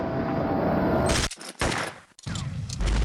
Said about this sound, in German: Ich lade durch. Headshot.